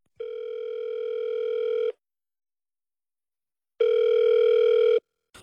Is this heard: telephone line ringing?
yes